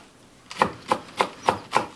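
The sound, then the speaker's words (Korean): Knife chopping onions and carrots finely on a board while preparing omelette rice, a steady series of about six crisp, evenly spaced strikes that begin after a short quiet lead-in. “양파와 당근을 잘게 썰고 밥과 함께 잘 볶은 뒤”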